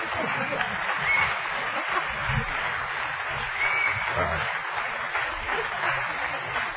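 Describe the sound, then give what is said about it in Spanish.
Steady applause from a crowd, dense continuous clapping at an even, fairly loud level for the whole stretch without clear breaks. “Aplausos, por favor.”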